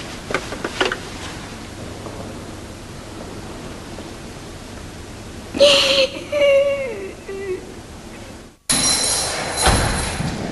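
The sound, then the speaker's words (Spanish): A woman sobs inconsolably with her face covered by her hands. A wavering, drawn-out wail rises out of steady background hiss midway and falls away, and the sound then breaks off abruptly into a louder burst of noise. “Selma se tapa la cara con las manos y llora desconsoladamente.”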